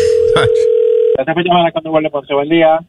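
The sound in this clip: A telephone dial tone hums steadily as a call is placed, a single flat pitch with a brief overlapping burst, then it cuts off sharply and a person begins talking.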